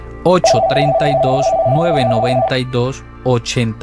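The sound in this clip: Steady telephone ringing tone for an incoming call, held for about two seconds beneath a talking voice.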